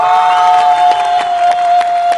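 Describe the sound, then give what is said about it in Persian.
A crowd at a live performance applauds, cheers and whistles for a performer. A sustained whistle tone rides over a dense, loud wash of clapping and shouting that continues throughout. “لطفاً با کف و سوت و هورا دعوت کنیم”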